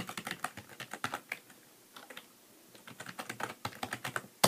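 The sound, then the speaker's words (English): Typing a website address on a computer keyboard: many quick, irregular key clicks, a short pause partway through, then more keystrokes ending in one sharper tap. “And so I opened it with Control O, and I'm going to type in a website, and we'll see what JAWS brings me.”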